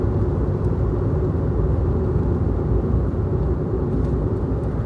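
Steady, loud, low rumble of a car interior while driving, continuous and unbroken with no talking.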